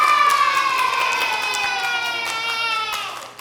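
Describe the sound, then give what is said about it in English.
A young audience cheers and claps, a bright chorus of high voices in a drawn-out falling cheer with a few sharp hand claps scattered through it, fading slightly near the end. “Clap it up for yourself.”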